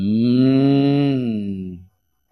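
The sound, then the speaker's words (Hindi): A miniature cow gives a single loud, drawn-out moo of nearly two seconds, a rich harmonic tone that holds level, then dips slightly in pitch and fades out. “ये micro गाय है और यहां पे बजाने वाले कृष्ण नहीं है, इसलिए नेचुरल है”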